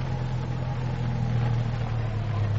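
Steady low engine hum of a car pulling in to park, a constant droning rumble without clear revving or pauses.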